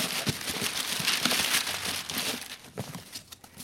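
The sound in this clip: Paper crinkling and rustling as a Christmas present is unwrapped, a dense run of crackly crumpling bursts that goes on throughout and eases slightly toward the end.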